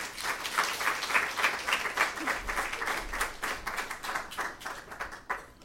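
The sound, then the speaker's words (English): Audience applause welcomes a poet to the stage at a reading: dense, sustained clapping from many hands, fairly loud and steady throughout. “Please welcome Kiki Petrosino.”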